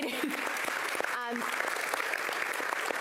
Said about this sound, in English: can we just give Deanna a round of applause?